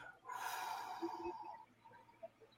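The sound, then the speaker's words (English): A deep breath is drawn in through the nose and released through the mouth. It is one long, airy rush of breath that fades out, followed by faint quiet. “I would invite you to take a deep breath in through your nose, filling your belly, nice big belly breath. And then release through your mouth.”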